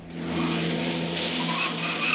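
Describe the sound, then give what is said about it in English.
A taxi's engine roars steadily as the car swerves around a corner and careers through back streets. The sound is a loud, continuous rumble with no voices. “The car swerves around a corner”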